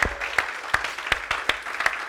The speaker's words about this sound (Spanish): Démosle un aplauso al Rey de Reyes y al Señor de Señores.